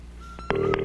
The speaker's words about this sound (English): Now, we are dialing our big winner. Let's hope that they are home. The line is not busy, I hope, too.